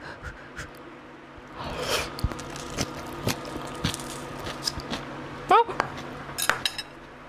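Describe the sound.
Cutlery clinks and scrapes against dishes as someone eats a home-cooked meal, with a few sharp, ringing clinks and softer scraping and tapping scattered through, fairly faint overall.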